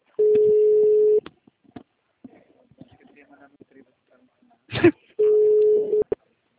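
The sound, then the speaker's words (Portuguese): An outgoing telephone call rings through as a ringback tone. Two steady one-second tones sit about four seconds apart, with faint handling noise and a short sharp burst in the near-quiet gap between them. “Vou ligar de novo”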